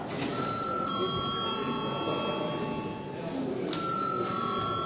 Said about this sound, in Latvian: Lūdzu zvanu.